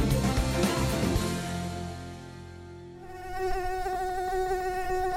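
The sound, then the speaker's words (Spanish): A high, whining mosquito buzz, a steady tonal drone with a slight wavering quality. It stays loud throughout, with a dense rougher layer in the first second, a softer dip in the middle and a stronger swell after about three seconds. “No me moleste, mosquito. No me moleste, mosquito.”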